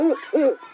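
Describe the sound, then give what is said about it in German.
Eagle owl call from a bird-voice clock: two deep hoots in quick succession, the second slightly stronger, within under a second. “Ist das ganz oben eine Eule? Ja, unsere größte Eulenart,”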